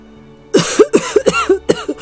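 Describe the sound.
A voice acts out a rapid series of harsh coughs for a little house choking on a factory's black smoke in a children's story, the coughs coming in quick, uneven bursts.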